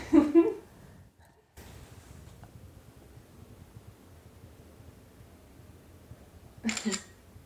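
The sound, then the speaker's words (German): A camera takes a photo, with two short shutter clicks separated by a long stretch of low background hiss. “Warte, warte, ein Foto.”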